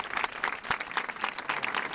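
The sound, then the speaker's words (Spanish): About two hundred teachers applauding together at a gathering outside a school in Melilla, condemning attacks on staff: steady group clapping with a gently pulsing rhythm, fairly soft, with no voices. “Con este aplauso, los docentes mostraban su apoyo a un compañero al que agredieron la semana pasada.”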